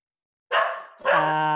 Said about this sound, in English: Sorry, I warned you about the dog.